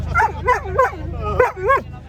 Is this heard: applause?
no